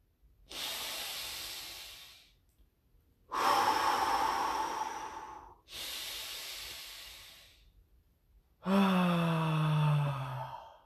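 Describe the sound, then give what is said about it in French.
Deep, slow breathing in a guided breathing exercise, full breaths rather than shallow ones: four long, loud breaths in and out with short pauses between, the last one voiced like a heavy sigh. “Respire pendant que tu peux respirer.”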